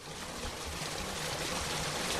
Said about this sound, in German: Am Rande des weiträumigen Gartens von Ferdinand Junius fließt der Mühlbach.